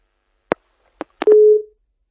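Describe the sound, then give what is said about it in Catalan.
A telephone busy tone sounds after a live call is cut off. Three sharp clicks come first, then a single steady mid-pitched beep that stops abruptly, leaving silence. “Doncs s'ha tallat la comunicació amb Carlota Petxamé. Mirarem si podem retornar aquesta trucada en directe.”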